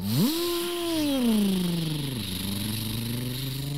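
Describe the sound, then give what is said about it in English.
Dirt bike engines taking off: a loud, steady motor drone that jumps sharply up in pitch at the start, then slowly sinks lower, dipping briefly before settling into a lower hum. “As Waverly and Sullivan took off in their dirt bikes, it actually scared the bunnies.”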